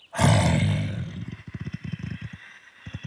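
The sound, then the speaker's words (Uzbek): Lion roaring: a loud, deep roar bursts out and then fades into a series of rhythmic, throaty grunts. “birdan tosh ortidan sher sakrab chiqib, uning yo'lini to'sibdi.”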